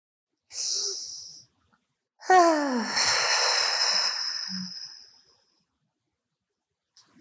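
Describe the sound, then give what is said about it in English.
A deep inhale and exhale during a mindfulness meditation: a short, hissing in-breath, a pause, then a longer out-breath that begins with a voiced, falling sigh and turns breathy before fading away. No talking. “just breathe in deeply. And as you exhale out, just breathe out all your worries. So let's do the first breath.”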